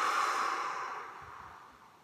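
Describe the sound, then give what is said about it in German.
A slow breath out through the open mouth, a soft, airy hiss that starts fullest and thins steadily over about two seconds, heard alone. “Und der Ausatmen erfolgt über den offenen Mund.”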